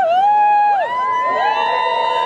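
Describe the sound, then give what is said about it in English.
Excited whooping cheers from people watching a total solar eclipse in Iceland: loud, sustained voices with clear sliding pitches that rise and fall, overlapping one another. “As people took off their glasses and stared wide-eyed at the sky, some cheered, others fell into silence.”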